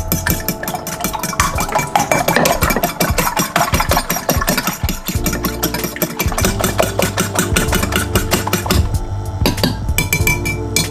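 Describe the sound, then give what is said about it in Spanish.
An egg being beaten in a bowl for a baking recipe, heard as a dense, loud, steady rapid rattle with clinks that runs without pause for about eleven seconds, with no talking. “Otro huevo. Ahora lo vamos a batir.”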